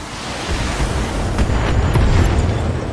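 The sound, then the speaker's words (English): A video game explosion destroys a turret generator building, a deep, sustained rumbling roar that holds steady at a loud level for about three seconds, with no talk. “Building's trash. No more turret generator.”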